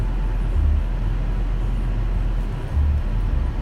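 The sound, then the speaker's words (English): Car being driven, heard from inside, a steady low rumble of engine and road noise that continues without a break, with no talk over it. “But I'm driving, which is always fun, always nice.”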